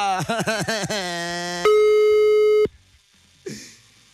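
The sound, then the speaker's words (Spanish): A telephone call to Tecpan de Galeana goes unanswered. Pulsing line tones are followed by one loud, steady beep lasting about a second, then near silence and a brief faint noise. “Estamos marcando a Tecpan de Galeana. Y Nancy no nos contesta.”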